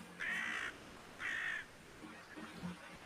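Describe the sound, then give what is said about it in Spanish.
A crow caws: two loud, drawn-out harsh caws, then a few fainter, shorter calls near the end. “Y te acompaña el graznido de un cuervo.”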